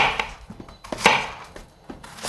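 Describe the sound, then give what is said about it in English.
Dull thumps of softened plantains being mashed with the bottom of a bottle: several irregular, fairly loud knocks and squashing impacts with short pauses between them. “Then comes the mashing, which you can do with the bottom of a bottle.”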